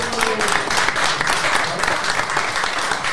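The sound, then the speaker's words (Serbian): Audience applause fills the whole stretch with dense, steady clapping at an even, fairly loud level and no clear breaks. “Aplauz za Mora.”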